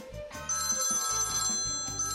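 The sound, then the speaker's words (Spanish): A telephone rings with a steady electronic tone made of bright, high layered notes that hold for about two seconds with no pauses. “Que tenemos una llamada.”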